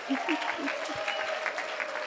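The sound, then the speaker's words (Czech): Audience applause at a gathering honouring women, a full crowd clapping continuously at a steady level, with a few voices audible above and beneath the dense patter of hands. “Zatleskáme všichni, děkuju.”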